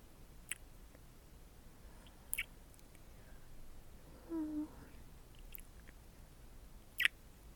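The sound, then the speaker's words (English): Soft kissing sounds from someone sitting on a partner's lap: a few faint, wet lip smacks spaced seconds apart, with a short low hum in the middle, quiet and without words. “It's been such a long time since I've kissed you like this.”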